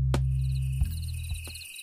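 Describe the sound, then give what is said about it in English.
Crickets chirping: a steady, high, pulsing trill of rapid repeated chirps that runs through the whole clip over a continuous low hum. “Imagine opening your door, and we all know this sound, the sound of crickets. Sound of crickets going on.”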